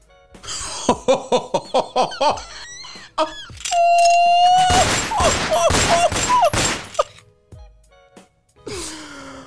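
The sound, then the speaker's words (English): A gunfire sound effect, a rapid burst of about seven loud shots in quick succession, followed by voices. “Guns are blazing.”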